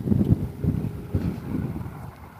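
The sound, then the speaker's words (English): Wind blowing and gusting hard enough to shake a hanging star ornament, heard as a steady low rumbling buffet that swells in a few gusts, with no voices. “The wind is coming in exactly the right direction because it's shaking that star around a little bit”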